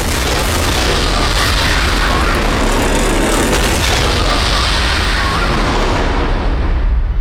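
A bomb-disposal team's explosion during a hostage-raid scene: a loud, dense blast roar that fills the whole clip as one continuous, heavy rumble without a break.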